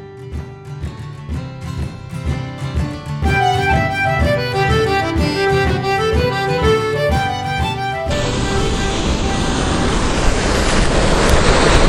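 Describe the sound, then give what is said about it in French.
Sea waves on the Irish coast, a broad rushing wash that swells in after a stretch of music and holds steady and loud to the end. “Je profite d'être euh, en, bord de mer”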